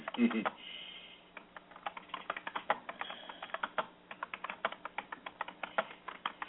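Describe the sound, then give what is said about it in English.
Rapid typing on a computer keyboard: many irregular, crisp key clicks follow one another in an uneven rhythm for the whole stretch, fairly faint and with no voices over them. “I'm going to have to type this in.”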